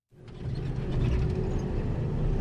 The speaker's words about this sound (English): Traveling in an armored vehicle with machine guns on top, and next to me some Burundian soldiers from the African Union peacekeeping force.